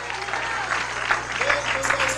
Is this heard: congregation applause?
yes